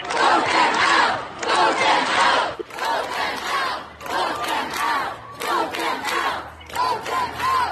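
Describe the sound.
Protesters at a student-led climate change protest chant loudly together in repeated rhythmic phrases, a large crowd of voices with brief pauses between lines.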